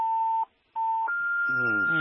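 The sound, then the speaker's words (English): Electronic beeping from a phone with an incoming call: two steady mid-pitched tones separated by a short gap, then a slightly higher sustained tone that continues as a voice starts speaking over it. “I think your phone, there's somebody who's trying to call you”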